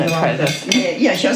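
Syrniki dough of egg yolk, rice and wheat flour, vanilla sugar and orange zest mixed by hand in a bowl in a Kyiv kitchen gives soft, continuous scraping and light clinks, brief and moderately loud.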